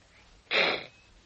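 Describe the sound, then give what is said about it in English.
One short sneeze bursts out on its own, a sharp, breathy, noisy blast lasting well under half a second amid near quiet. “What was that? A sneeze.”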